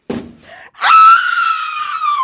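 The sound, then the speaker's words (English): A loud staged scream from a dramatic reenactment follows a short burst of sound, then holds a high, steady pitch for well over a second before tapering slightly. “Whoa, that was a heck of a scream.”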